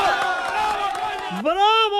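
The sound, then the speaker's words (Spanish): A crowd cheers and shouts bravo with excited voices overlapping. Near the end, one loud voice rises sharply in pitch into a long, sustained shout. “¡Bravo! Ahí es, ¡bravo, coño! Era exactamente el grito. Ahí estaba la masa entregada.”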